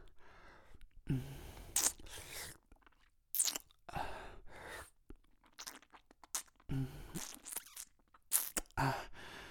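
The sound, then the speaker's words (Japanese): Wet licking and mouth sounds, close-up and intimate, come in repeated smacking bursts separated by short pauses, with no talking. “乳首舐められたかったんだ。ならいっぱい舐めてあげる。”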